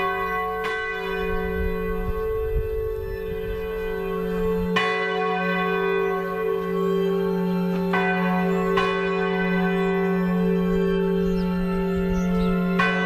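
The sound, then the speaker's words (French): Church bells ring the Angelus, a few resonant strokes spaced several seconds apart over a sustained, humming ring of overlapping tones, steady in loudness, with no voices. “Quand vous entendez sonner l'Angélus, que ressentez-vous?”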